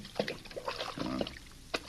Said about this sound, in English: Me fill canteens.